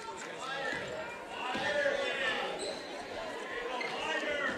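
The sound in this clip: Basketball dribbling on a gym court during a girls' high school game, a steady run of bounces under continuous crowd noise and background voices.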